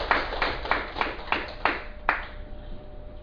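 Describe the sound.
Several slow, evenly spaced claps at a Buddhist dharma talk: sharp, separate hand claps in a steady rhythm that stop after a couple of seconds, leaving quiet.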